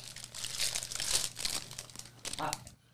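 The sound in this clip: Crinkly plastic of a paleta ice cream wrapper being ripped open fast: a run of dense crackling and tearing rustles that come in several bursts, with a final short crinkle before it goes quiet.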